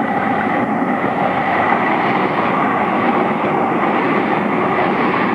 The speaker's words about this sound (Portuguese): como prova que estamos na ponte 1 vamos deixar o metro falar por nós